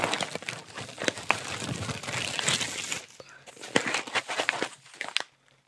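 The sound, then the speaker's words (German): A delivered parcel being torn open: crinkling packaging and rough tearing in many irregular bursts, busy and fairly loud, before it suddenly stops near the end. “Und heute kam dieses Paket an. Was ist da drin? Ähm, ich habe es noch nicht aufgemacht, ich hatte noch keine Zeit. Ähm, reiße es einfach mal auf.”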